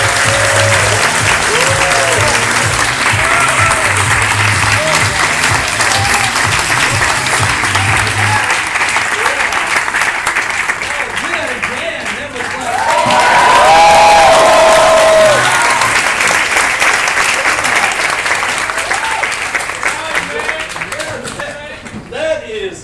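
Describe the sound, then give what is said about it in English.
Audience applause greets a speaker as he is introduced: continuous, dense clapping from a crowd carries on for over twenty seconds and swells louder partway through before easing slightly. “So, okay, without further ado, Paul Dunn, put the hands together.”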